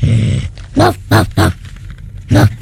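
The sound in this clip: A human voice imitates a dog barking, giving several loud, gruff bark-like bursts spaced unevenly.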